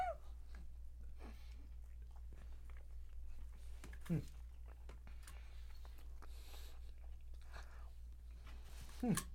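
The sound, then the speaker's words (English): Smacking, wet chewing of a big bite of food, heard as a few soft clicks and mouth noises over a steady low hum. “I love I can hear your smacking in these mics. I love it. How professional are we? I took a big bite.”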